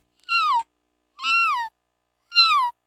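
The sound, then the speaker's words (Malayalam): Kitten meowing: three clear, high-pitched meows, each about half a second with a slightly falling tone, separated by short silences. “പൂച്ചക്കുട്ടി.”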